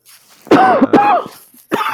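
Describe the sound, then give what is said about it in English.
A few loud, raspy coughs burst out in quick succession with a throat-clearing edge, a short gap before the last one, which is cut off at the end. “It's a very attractive cough.”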